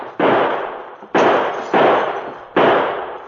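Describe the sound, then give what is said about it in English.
Four sharp gunshots ring out in a radio drama shootout as two men fire from inside a small office. Each shot is a loud, broad crack with a short fading tail. The shots are unevenly spaced, with no voices between them. “While Joe and Eddie fired from the protection of the little office”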